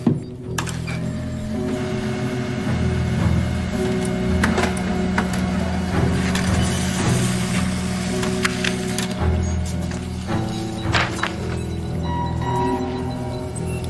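A printer running as it prints a photo, giving off a steady mechanical whir with a low tonal hum, scattered clicks and a few louder clatters over the length of the run, with no voices.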